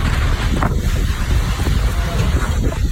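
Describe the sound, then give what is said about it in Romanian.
Hurricane winds in the Bahamas roar at speeds of up to 300 km/h. A loud, continuous, buffeting rush of wind noise fills the whole clip without letting up. “Because power is out here. It sounds like a jet engine. Just screaming winds.”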